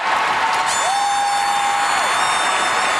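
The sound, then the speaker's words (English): Crowd roar in the final seconds of an Ottawa Charge versus Montreal Victoires game, a loud, unbroken wall of noise with a sustained tonal note standing out from it for about a second in the middle. “This is the sound of the crowd in the dying seconds of this game.”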